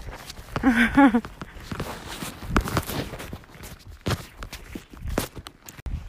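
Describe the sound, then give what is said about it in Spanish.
Footsteps of a person who has been walking for hours, heard as soft, irregular steps and scuffs, with a brief vocal sound near the start. “Llevo 10 horas con 33 caminando.”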